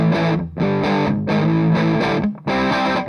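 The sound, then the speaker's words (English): Electric guitar through a Muff-style fuzz pedal on a light, fuzzy setting: a few sustained, gritty chords played loud, separated by brief gaps. “That's not bad. Nope. That's a nice light, fuzzy sound.”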